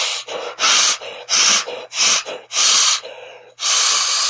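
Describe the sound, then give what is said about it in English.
Forceful breaths are blown into the blow tube of a manually inflated airbag vest, a series of loud, airy puffs, each lasting under a second, separated by brief pauses, with no talk. “So we've introduced a manually deployed airbag vest. In the case of an emergency stop, you simply pull out the convenient blow tube and...”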